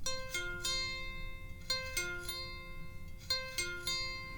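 Plucked strings on a cigar box guitar neck played without a box attached: a quiet series of thin, ringing notes with crisp attacks and sustained tones, some notes repeated in pairs.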